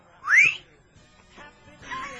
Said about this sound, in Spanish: Yo no sé si son silbidos de aprobación o de reprobación.